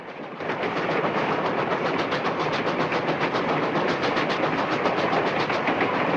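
A moving train runs on railway tracks, its wheels making a loud, steady, rapid rhythmic clatter that starts abruptly after a brief quieter moment and keeps going without a break.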